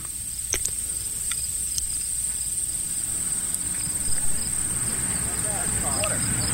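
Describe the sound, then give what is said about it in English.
Crickets chirp in a continuous, high, shrill drone that stays level throughout, over a soft background hiss. “Crickets”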